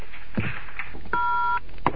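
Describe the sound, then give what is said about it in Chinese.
A telephone answering machine message beep sounds as one steady electronic tone lasting about half a second, with brief clicks and bumps on a thin, narrow line before and after it. “一天晚上，李青接到了刘元的电话留言。”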